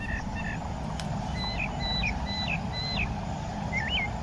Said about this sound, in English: we are currently listening to the tundra swans, bald eagles, mockingbirds, sparrows, and lots of other great birds. We hope you can hear it in the background.